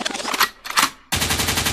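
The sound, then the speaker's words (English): Gunshot sound effect of rapid gunfire: several loud, noisy bursts of shots, then a sharp cut into a dense, continuous stream of fast automatic fire. “Echo means rewind, the gunshot means forward.”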